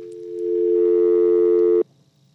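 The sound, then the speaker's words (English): Steady telephone line tone after a dropped call-in call, a single sustained hum-like tone that swells in, holds for nearly two seconds, then cuts off abruptly into near silence. “Nobody on the line? We lost that call. Okay, we lost that call.”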